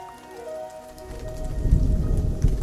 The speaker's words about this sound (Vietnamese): Buổi sáng hôm đó, trời mưa phùn rả rích, kéo dài đến chiều vẫn chưa có tạnh.